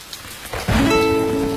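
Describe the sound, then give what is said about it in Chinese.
Steady rain pattering on a surface, a dense hiss that swells sharply in loudness partway through and then holds, with no voices. “真的又下雨了，”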